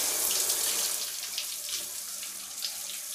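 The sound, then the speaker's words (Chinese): Running water rinses soap foam off a body, a steady, fairly soft hiss of flowing water with slight splashy variation throughout. “让我先帮你把泡沫冲洗掉”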